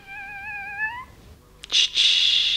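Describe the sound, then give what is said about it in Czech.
A live kitten meows from inside a parcel: one drawn-out, wavering high call lasting about a second, followed after a short gap by brief bursts of hissing noise. “V tom balíku je živé kotě.”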